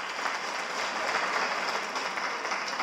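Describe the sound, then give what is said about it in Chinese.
Audience applause for a team at a large ceremonial gathering: a steady, dense patter of many hands clapping for about three seconds, with no voices over it. “我想是不是借大家的手，鼓励一下我们好修的优质的团队？谢谢大家。”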